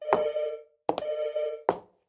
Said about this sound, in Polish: No, to twój telefon? Oj, tak, chyba mój. Dzwoni w kuchni?